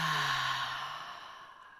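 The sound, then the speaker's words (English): A deep exhale through the mouth during a guided breathing exercise, a soft, breathy whoosh that fades gradually over nearly two seconds. “And then exhale through the mouth, let it out.”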